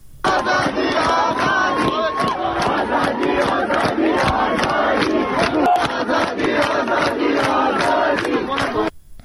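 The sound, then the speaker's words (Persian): Protesting university students at a campus sit-in chant a slogan in unison. Many voices form a loud, dense crowd sound that holds steady throughout, with rhythmic pulses. “در ساعت‌های میانی روز صدای یکی از شعارهای اونها رو میتونیم بشنویم.”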